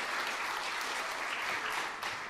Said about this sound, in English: And I would like everyone seated to give them a huge cheer and applause.